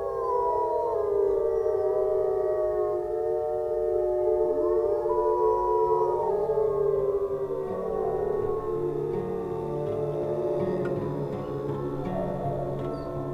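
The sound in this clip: Wolves howling to call the pack back together after a hunt: several long, overlapping howls that glide up and down in pitch, forming a sustained, wavering chorus heard alone.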